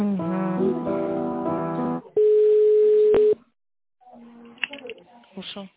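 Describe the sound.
A telephone line tone plays while a caller is put on hold and transferred to another person at a company. A harmonic tonal passage gives way to a single steady beep lasting about a second, then brief silence before voices talk.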